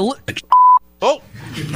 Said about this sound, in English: It looked like there was a beep in it.